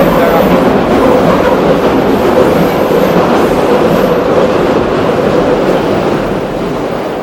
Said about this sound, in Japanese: 今高架下を、 代々木 ですか、はい、代々木で高架下を歩いて電車がガタゴト言っていると